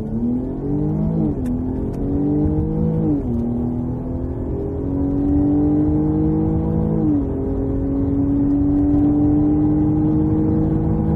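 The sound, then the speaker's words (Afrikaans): Jaguar car with a supercharged 3-litre V6 producing 280 kW, revving hard under acceleration: a loud, continuous engine note climbs in pitch and drops back three times at gear changes, then climbs again, with no talk. “Sy druk aangejaagde 3 liter V6, die Engelse praat van 'n supercharger, stoot 280 kW en 450 Nm uit.”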